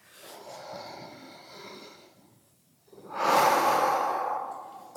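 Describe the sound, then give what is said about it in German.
Slow, deliberate deep breathing during a mindfulness meditation, with conscious inhales and exhales. A soft, long airy breath fades to a brief pause, then a louder, fuller breath rushes in and trails off. “Und dann lade ich Sie ein, zunächst mal zwei, drei Atemzüge ganz bewusst ein und vor allem auch auszuatmen.”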